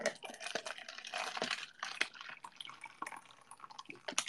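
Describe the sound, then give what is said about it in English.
Soup poured from a hot pot into a container in a kitchen: irregular liquid splashing and dripping with small clinks, moderately quiet, and no talking. “Pouring the soup.”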